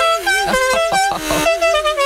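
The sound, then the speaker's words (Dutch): A loud battery-powered horn built onto the back of a bicycle during a group cycling tour, blaring a sustained, buzzy tone that wavers slightly in pitch, with a few short pulses mixed in. “Zo heeft deze jongen speciaal voor de gelegenheid een flinke toeter achterop gebouwd.”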